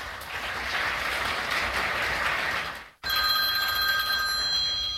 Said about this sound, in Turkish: Aranızda iyi olanı varsa bir zahmet çıkıversin şu telefonu.